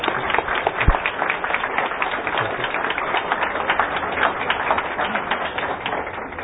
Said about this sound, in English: let's put our hands together to welcome Dr. Dean